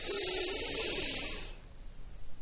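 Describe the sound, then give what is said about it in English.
A long, deep breath drawn in during a guided mindfulness exercise, heard as a loud, steady, airy hiss for about a second and a half before it fades to near silence. “Let's go ahead and take that deep breath in. I'm talking all the way to the bottom of your lungs.”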